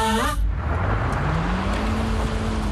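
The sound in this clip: An old car's engine strains to climb a hill. Its rough, steady roar carries a low whine that slowly rises in pitch.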